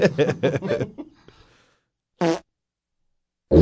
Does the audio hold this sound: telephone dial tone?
no